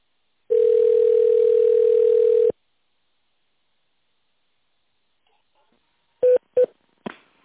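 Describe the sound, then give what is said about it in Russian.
Telephone tones on a call to a company's automated phone line while dialing an extension: a long, steady single tone for about two seconds, then silence, then a few short, clipped beeps near the end. “Пожалуйста, наберите в тоновом режиме добавочный номер или дождитесь ответа оператора.”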